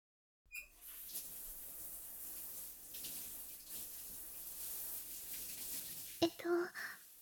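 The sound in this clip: Running bath water pours from a tap as someone rinses off in a spacious bath, a steady soft hiss of flowing water with a few louder splashes near the end.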